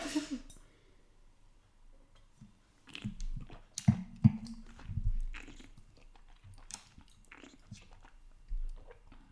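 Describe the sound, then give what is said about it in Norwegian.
A wine taster drawing air through wine held in the mouth, a few quiet, wet slurping and smacking bursts separated by near silence. “da kommer jeg til å bråke litt, fordi at vi som driver med vin, vi trekker litt luft inn mens vi har vinen i munnen, igjen for at smaken skal utvikle seg ytterligere.”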